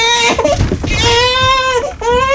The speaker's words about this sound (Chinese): 宝贝别哭啊，让奶奶抱抱。